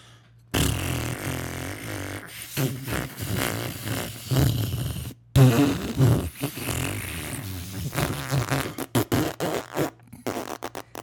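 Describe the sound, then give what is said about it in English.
A voice imitates a fart with long, spluttering raspberry noises, broken into a few drawn-out bursts that turn to short sputters at the end. “Your shart. It was not a shart. It sounded like it. Well, regardless of what it sounded like, it was all gas. Oh, let me I'll tell you what it sounded like.”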